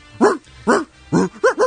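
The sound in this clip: A chorus of dogs barking out a march theme: five pitched, evenly shaped barks in a rhythmic pattern, the first three spaced apart and the last two quicker together.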